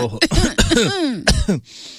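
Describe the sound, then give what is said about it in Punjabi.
Coughing by a woman: several rough, loud bursts in quick succession, with voiced, falling rasps between them, heard alone. “ਮਾਰ ਜੀ ਖੰਘ ਰਹੀ ਆ, ਉਹ ਖੰਘ ਲਓ ਫਿਰ,”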